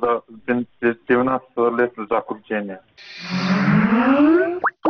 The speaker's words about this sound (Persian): اوه، این صدای باز شدنی برنامه کامپیوتری سکایپ است